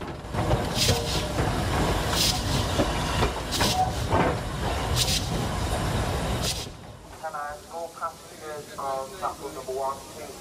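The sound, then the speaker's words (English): Train running gear heard up close, a steady rumble and hiss cut by regular sharp clacks about every second and a half, before the rumble drops away and a voice talks. “The running gear up close, maintaining its regular, reassuring rhythm.”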